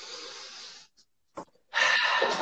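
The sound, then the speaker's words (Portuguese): Deep breathing while seated in a bathroom during a guided relaxation exercise: an airy breath, a pause with a few brief soft noises, then a louder, rushing breath that carries on to the end. “Você vai fechar o seu olhinho, você vai respirar profundamente.”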